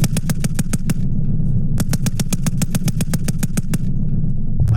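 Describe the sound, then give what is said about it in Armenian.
Rapid machine-gun fire from test shooting of advanced weapon systems at a military training range, in two long bursts of sharp, evenly spaced shots separated by a brief pause, loud over a low rumble. “Ամերիկացի և վրացի զինվորական հրահանգիչները Վազյանի փորձադաշտում ցուցադրել են այդ զենքի կարողությունները փորձնական կրակոցներ արձակել։”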